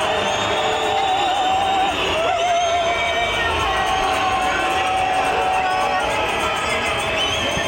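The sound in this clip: A crowd of protesters cheers: a loud, continuous roar of many overlapping voices, with shouts and high whoops rising out of the mass throughout.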